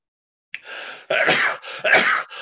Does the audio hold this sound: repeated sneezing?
yes